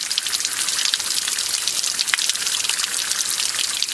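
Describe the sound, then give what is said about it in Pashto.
Fresh water flows along a narrow roadside channel, a steady, even rushing hiss that holds at a constant level throughout, with no voices or other distinct sounds. “د سړک پر غاړه په یوه نری ویاله کې تازه ورنې اوبه بهیږي”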